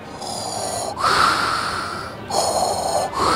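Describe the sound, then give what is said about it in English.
Loud, raspy wheezing breaths in two full in-and-out cycles, each a harsh hiss that swells and fades, heard alone with no talk. “You need a Claritin or something? You got a little... I'm wheezing.”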